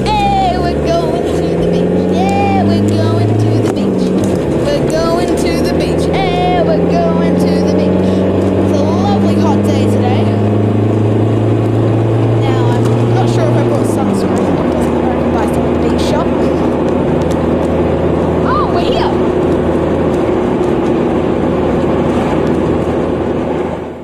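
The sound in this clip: A car engine drones loudly and steadily while driving to the beach, its pitch climbing and dropping back a couple of times as it runs through the gears, with road rumble underneath.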